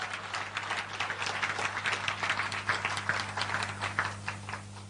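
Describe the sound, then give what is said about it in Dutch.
A church audience applauding a guest: faint, fairly even clapping that continues steadily throughout, with a low electrical hum underneath. “Mag ik een, ehm, een warm applaus voor Wilkim, die hier is.”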